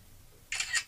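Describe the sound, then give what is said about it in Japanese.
A camera shutter fires in live camera mode while a dish is photographed, giving one faint, crisp two-part mechanical click on its own. “ライブカメラがね、あんまり好きじゃないんですよね。 かしゃ、”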